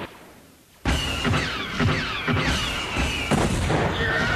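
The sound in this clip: Ion cannons and turbo lasers fire from defense towers in a rapid barrage of loud, booming blasts that follow one another closely after a quiet opening.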